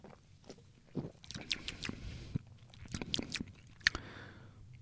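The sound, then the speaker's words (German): Someone sips a Red Bull Organics Viva Mate, a mate soft drink, producing faint, wet mouth noises: several slurps and swallow-like clicks against a low background, with no talk. “Und dann wollen wir doch mal feststellen, wie schmeckt denn nun diese Red Bull Organics Viva Mate. Nehmen nochmal einen Schluck.”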